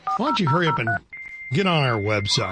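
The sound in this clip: A steady electronic dial-up modem dialing tone holds one pitch under a man's continuous talk, entering midway and lasting to the end.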